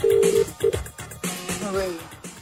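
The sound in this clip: An unanswered phone call rings out in a short double burst of a low, steady ring tone at the start, then voices talk over the line.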